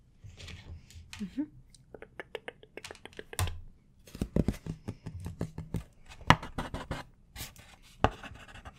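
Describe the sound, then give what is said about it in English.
Pen scratching as notes are written down during an ASMR measuring roleplay: many short, dry scratches and taps in an uneven rhythm, with quiet whispered speech at times. “Let me just write some more things down, okay?”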